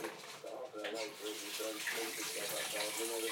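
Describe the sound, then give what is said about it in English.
Steady tap water runs and splashes as someone washes hands greasy from handling lamb, a continuous bright hiss with a faint murmuring voice beneath it. “Now I need to wash them though because it's quite greasy.”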